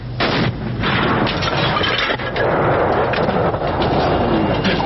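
Firing of a 120 mm mortar: loud, heavy booming blasts set into a dense, constant rumble of noise that stays loud throughout.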